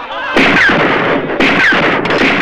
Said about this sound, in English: pumps bullets into the armor